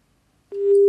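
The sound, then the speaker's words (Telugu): A busy tone sounds on a phone line after a call is disconnected: a single steady, low electronic beep starts after half a second of silence and runs to the end. “Call cut అయిందండి.”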